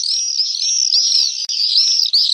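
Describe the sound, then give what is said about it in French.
Common swifts call loudly in continuous, overlapping high-pitched screeching trills, shrill and buzzy, with only brief gaps. “c'est le martinet noir qui va emprunter les courants ascendants et dormir dans le ciel”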